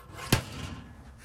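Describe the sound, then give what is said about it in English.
A single sharp slam of an oven door shutting inside a caravan: one brief, loud, punchy thud that quickly dies away, leaving only faint background noise. “And this is the noise of the oven door shutting.”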